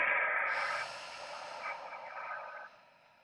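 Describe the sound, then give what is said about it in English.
During a guided meditation breathing exercise, a deep inhale through the nose gives way to a long, airy exhale through the mouth, a soft steady hiss that gradually weakens and fades near the end. “Take a deep breath into the nose. Long exhale through the mouth.”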